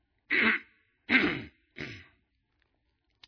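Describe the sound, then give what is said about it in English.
A man's voice imitates a friend clearing his throat: three gruff, rasping bursts with short pauses between, the second strongest and the third shorter and softer, followed by silence and a faint click. “my friend who didn't want to say anything cleared his throat. He went,”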